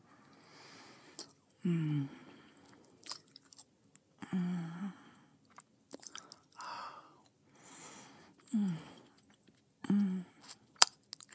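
Chewing food in a few soft, low munching bursts separated by short pauses, with occasional small clicks between bites.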